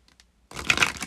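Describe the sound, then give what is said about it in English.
Goddess oracle cards are shuffled in a short, crisp rustling burst, preceded by a couple of faint taps. “So let's pull a goddess card and see what goddess needs to come up for us this week.”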